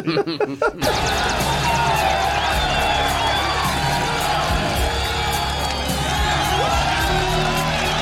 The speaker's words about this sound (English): It's almost like a loop of hooray! I was like, that sound is dubbed in of a crowd